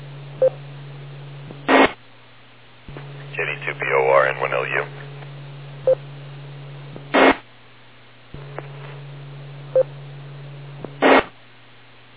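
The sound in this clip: Keypad tones from an amateur radio microphone as the operator changes frequency: three loud, evenly spaced tone bursts and a few faint short beeps over a steady low hum. A voice speaks briefly between the first two bursts.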